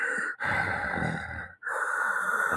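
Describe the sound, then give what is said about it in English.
A voice imitates heavy, rasping breathing through a mask: a few long, loud, hissing breaths separated by brief pauses, each one sustained and harsh, with no talking. “I am your father. And then breathe heavily.”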